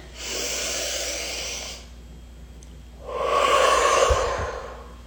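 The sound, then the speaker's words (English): A deep breath taken before an invocation at a full moon circle: two long, airy breath sounds separated by a pause, the second louder and fuller than the first, heard alone. “I'm going to take a deep breath here before I bring in this invocation”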